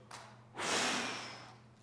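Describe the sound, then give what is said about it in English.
A human breath is blown out in one forceful exhale: a faint puff comes first, then a loud, airy whoosh that begins abruptly and fades gradually over about a second. “This is human breath. It is somewhat powerful. I myself can blow out 40 birthday candles with it,”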